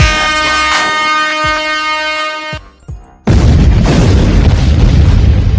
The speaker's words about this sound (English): Explosions.